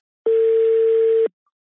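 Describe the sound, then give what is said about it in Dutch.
Telephone tone heard while placing a call: a single steady, mid-pitched beep lasting about a second, then silence. “Zullen we hem even bellen?”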